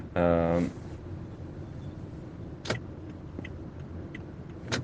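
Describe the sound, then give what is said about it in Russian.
A car creeps through a traffic jam with a low, steady interior rumble. A voice speaks briefly at the start, and a few faint clicks sound later on. “я просто за рулем еду и здесь в пробке туда-сюда тыкаюсь”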